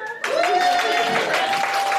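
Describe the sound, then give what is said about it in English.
Audience applause for a keyboard player at a live evening show, a dense, steady wash of clapping that swells in quickly and holds. “Bigger applause for Sammo.”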